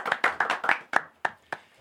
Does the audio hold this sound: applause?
yes